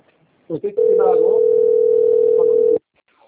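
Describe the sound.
A steady, single-pitched telephone dial tone sounds while a call is being placed. It holds loud for about two seconds and then cuts off, with a brief voice just before it.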